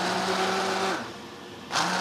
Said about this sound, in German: So, und jetzt ist die Suppe sozusagen durchgekocht, jetzt wird püriert, derweil die Chips hinten noch rutzeln.